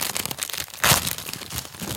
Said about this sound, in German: Pack sie einmal aus.